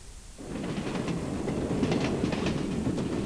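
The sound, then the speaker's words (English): A train running on rails makes a steady, broad rumbling roar that swells in after a brief quiet start and holds evenly to the end, with no voices. “Excuse me, does this train stop at Gatwick?”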